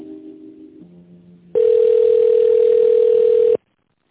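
Telephone line tone plays while a call is transferred to a secretary: a couple of lower, shifting tones give way to a loud, steady continuous tone lasting about two seconds, then cutting off abruptly into silence.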